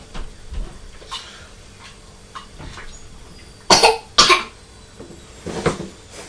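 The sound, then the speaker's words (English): A child coughing: two sharp, loud coughs in quick succession midway, then a softer cough, with quiet background otherwise. “You're coughing.”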